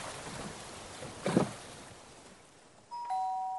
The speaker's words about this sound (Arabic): ثم يسمع صوت قرع الجرس